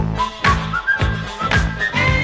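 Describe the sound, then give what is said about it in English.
Bright melodic whistling of short, clear notes carried over a pop song with a steady, thumping beat, the whistled tune running on alone without any singing. “Think I'll whistle a while.”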